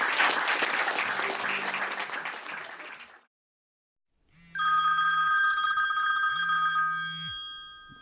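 A telephone bell rings in a loud, sustained electric trill with no talk over it. It comes in after a burst of applause and a brief silence.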